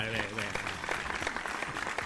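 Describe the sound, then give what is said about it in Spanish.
Audience applause, dense and steady clapping with voices talking over it throughout. “Vamos a darle un aplauso a la reina.”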